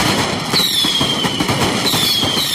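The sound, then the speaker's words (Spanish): A pyrotechnic barrage at a religious town festival in Almoines makes a loud, dense rattle of many rapid bangs and crackles that never pauses, with thin high whistles streaking above it. “Así sonaba hace unos minutos el bombardeo pirotécnico en Almoines.”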